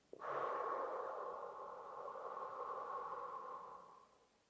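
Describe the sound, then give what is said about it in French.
Breathing during a stress-relief relaxation session: one long, steady, faint breath with a hissing, slightly tonal edge, holding for about four seconds before tailing off. “On inspire et on souffle, on relâche.”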